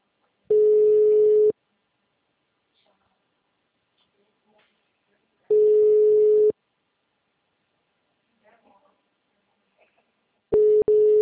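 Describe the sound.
Ringback tone of an unanswered phone call: steady mid-pitched beeps about one second long, repeating every five seconds with silence between, three in all.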